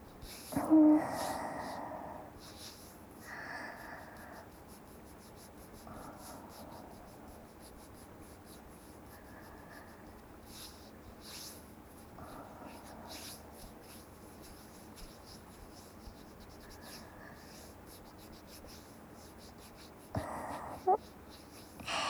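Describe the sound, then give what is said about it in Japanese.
Close-up ASMR of fingertips stroking a cheek: soft, faint rubbing and brushing textures go on for many seconds, with a few brief, quiet vocal murmurs and a couple of louder soft bumps. “ちょっとほっぺ、指で撫でるね。”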